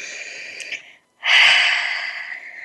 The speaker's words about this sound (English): One more collective breath.